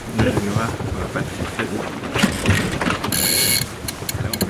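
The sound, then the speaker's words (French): Ratcheting clicks from a sailboat winch as the headsail is hoisted, heard as scattered mechanical bursts over steady wind noise. “On envoie la voile avant. C'est bon. Là, je vais choquer.”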